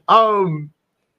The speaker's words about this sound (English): And I'll apologize if anyone is trying to figure out what that sound is in the background. That's my dog snoring because I'm watching her trigger the mic in Discord every time she exhales.